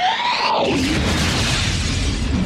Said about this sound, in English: Here's the first weird fire sound.